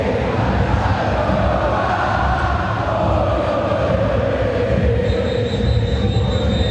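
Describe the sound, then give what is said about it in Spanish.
Boca Juniors fans fill the stadium with a dense, steady roar, restless and urging their team to move, holding an even level throughout with no single voice standing out. “Escuchen al público de Boca que está nervioso. Que le está pidiendo el equipo que se mueva.”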